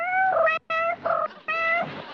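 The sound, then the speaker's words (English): A person imitates a cat's meow, giving three drawn-out, nasal meows in a row separated by brief pauses. “He's learning to meow from the cat food commercials.”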